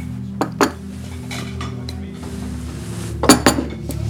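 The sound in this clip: Dishes and cutlery clink as a waiter serves a table, with a couple of sharp clinks early and another small cluster near the end over a steady low hum.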